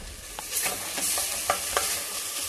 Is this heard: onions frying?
yes